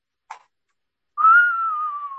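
A person whistles one long, clear, sustained note that lifts slightly at first, then glides slowly downward, preceded by a brief, faint breathy puff and a short silence.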